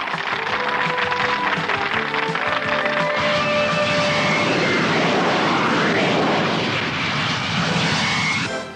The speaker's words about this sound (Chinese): 现在由新世纪最新型嘅幻影式战斗机表演